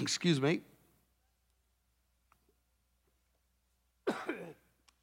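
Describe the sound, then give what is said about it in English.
A person coughs in two short, raspy bursts separated by a long quiet pause, each burst dying away quickly. “Don't worry, I've been coughing all week long”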